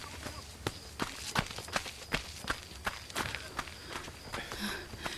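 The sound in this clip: Footsteps of two people running in a training session land in a steady rhythm of many quick, evenly spaced footfalls that continue throughout.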